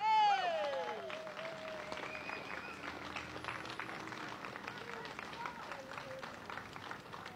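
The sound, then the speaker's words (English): Audience applause greeting a speaker taking the stage at an event: a brief falling vocal whoop opens, then steady clapping runs throughout with scattered voices over it. “Ladies and gentlemen, put your hands together for Jonathan Binge.”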